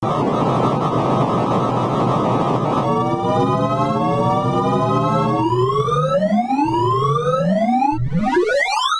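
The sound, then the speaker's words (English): Synthesized audio from a radix sort algorithm visualization with musical cues: loud, dense buzzy noise gives way to layered harmonic tones, then rising pitch sweeps that repeat faster and steeper toward the end. “and then they tie some musical cues to it. And so the Radix sort is my favorite sound. And it sounds like this.”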